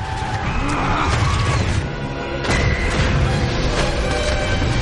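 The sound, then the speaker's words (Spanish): An animated spacecraft lands and skids across asphalt, tearing up the road surface before braking hard. Dense, continuous rumbling and scraping noise stays loud throughout, with a sharper burst midway. “La nave de Gru aterriza y patina levantando el asfalto. Gru pisa el freno.”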